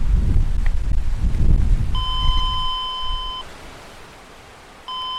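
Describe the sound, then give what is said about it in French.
Electronic buzzer of a doorbell or intercom at a gate sounds a steady, bright tone for about a second and a half, then starts again after a pause, following a stretch of low wind rumble. “On va sonner.”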